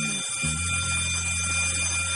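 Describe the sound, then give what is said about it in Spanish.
An alarm goes off during a heist scene in a crime film, a steady, unbroken electronic ringing with shrill high overtones and a low hum beneath, sustained throughout without speech. “cuando la alarma empieza a sonar”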